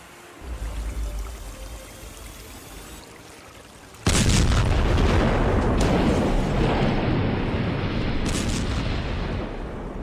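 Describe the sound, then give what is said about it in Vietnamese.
A fuel depot explodes at night at a port near Saigon: a low, uneven rumble gives way to a sudden, massive roar that stays loud and dense, like a sustained blast and fire. “Vụ nổ kho xăng giữa đêm khuya làm rung chuyển Sài Gòn.”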